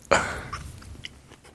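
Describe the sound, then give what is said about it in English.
A bite into a waffle, one sharp crisp crunch at the start that fades into softer, fainter chewing noises. “here's some ASMR of waffle eating.”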